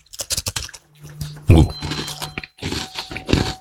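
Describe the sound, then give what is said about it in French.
Crunchy chewing of a small cake: a close run of crackly mouth sounds, with many short crunching bites in uneven bursts and a louder cluster near the middle. “je vais manger un petit gâteau”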